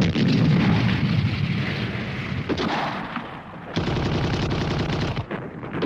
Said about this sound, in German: Aufgeschreckt durch das laute Artilleriefeuer weckt man Hitler